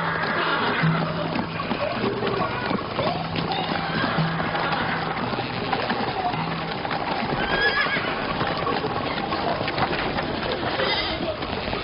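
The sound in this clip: A horse whinnies while its hooves clip-clop steadily. The dense, continuous animal sound holds at an even loudness for the whole stretch.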